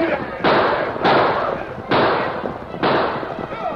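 Gunshots ring out as ranchers and homesteaders, riding hard, fire on attackers. Four loud, sharp shots are heard, each followed by a long, noisy crackling decay that runs into the next, with no talk.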